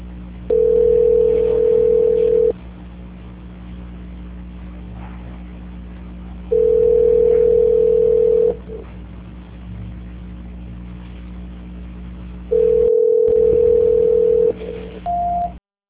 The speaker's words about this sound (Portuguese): Só um minuto, por favor, que eu vou transferir a ligação. Transferência.